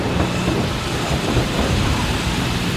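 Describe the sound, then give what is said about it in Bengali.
Heavy rain pours down in a thunderstorm, a dense, steady roar with low rumbling thunder beneath it, unbroken throughout. “হঠাৎ কড়কড় করে বাজ পড়লো কোথাও শুরু হলো তুমুল বর্ষ”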